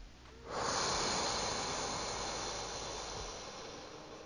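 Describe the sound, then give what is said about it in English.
A single long, slow breath during a guided breathing exercise of in through the nose and out through the mouth, a soft airy hiss that begins after a brief quiet moment and gradually fades, heard alone. “Second breath in through the nose. Hold. And out through the mouth.”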